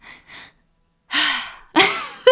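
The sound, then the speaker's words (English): A cold-water breathing exercise: two quick, short inhales, then a long, loud breathy sigh out, followed by further heavy breath sounds and a brief final gasp. “A common kind of breath practice here is to take two breaths in and almost like one big sigh out.”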